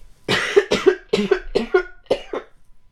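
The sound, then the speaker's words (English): A woman coughs into her elbow, turned away, in a rapid run of several harsh, fairly loud coughs, with no talk. “represented proper coughing etiquette, coughed into her elbow, turned away from me.”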